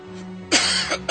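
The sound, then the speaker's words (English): A cough breaks out suddenly: one loud, harsh burst followed by a couple of shorter rough bursts, sounding alone without talk. “another cough there”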